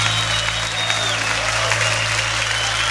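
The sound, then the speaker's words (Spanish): Congregation applauding in a church service, a dense, steady wash of clapping that holds without a break from start to finish. “manda tu aplauso a Él fuerte.”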